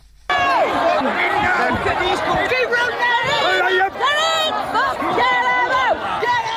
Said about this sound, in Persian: این صدای حمله کنندگان به یک هتل مخصوص مهاجران در بریتانیا است.